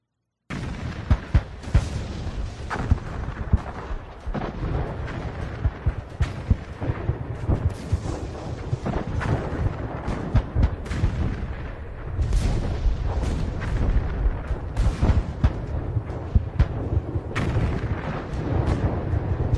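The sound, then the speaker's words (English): Battlefield shelling recorded at the armistice after four years of war: many sharp booms and bursts punch through a constant, dense rumbling roar that stays loud throughout, with no voices. “of the sound from the battlefield when the armistice was signed. And after 4 years of continual shelling and bombing and death, the guns fell silent.”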